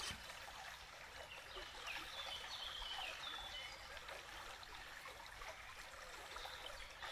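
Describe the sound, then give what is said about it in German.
Soft, steady trickle of flowing water beneath a guided water meditation, faint and continuous for about seven seconds, with a few brief high bird-like chirps in the middle. “Begrüße dieses Wasser, die Kraft, die alles wieder ins Fließen bringt und auch reinigt.”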